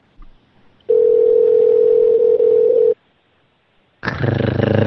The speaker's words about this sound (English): Ring. Ring.